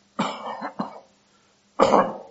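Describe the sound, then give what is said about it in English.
Harsh coughs from a person getting over a lingering cough: a few rough bursts in close succession, then a pause and a final louder cough, with no talk around them. “just had a little remnant of that cough”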